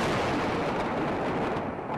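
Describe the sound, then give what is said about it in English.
Israeli warplanes strike targets in the Gaza Strip, heard as a loud, continuous rumbling roar of explosions with no clear gaps between blasts. “Israeli warplanes attacking targets after a rocket strike by Palestinian militants on a southern Israel killed one person.”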